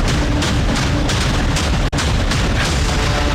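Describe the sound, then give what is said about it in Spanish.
Stun grenades exploding in a pre-dawn raid on a city street area: a loud, dense roar of booming blasts that run together into continuous noise, with one brief dropout partway through. “El sonido seco de las granadas aturdidoras rompió el silencio de la madrugada.”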